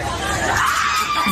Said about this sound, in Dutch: Schreeuwen wel verder, die Amerikanen.